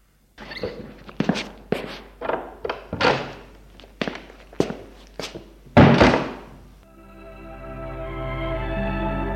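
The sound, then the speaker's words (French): Footsteps and thuds as a woman gets up and walks out of a bedroom: many dull steps and knocks in an uneven rhythm, then one heavier thump, followed by a steady tonal drone. “Elle se lève, sort de la chambre pour aller chercher l'enfant.”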